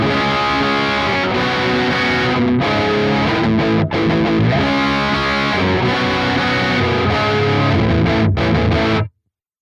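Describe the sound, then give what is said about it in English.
Heavy distorted electric guitar chugs with a boomy, tubby low-end EQ, a dense, continuous riff at steady loudness that cuts off abruptly near the end. “So our first EQ is that tubby one, the tubby EQ on the low end. So here's what that sounds like.”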